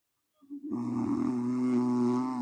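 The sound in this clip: A person snoring: a single long, loud, rasping snore that starts abruptly and drones at a steady low pitch for about two seconds.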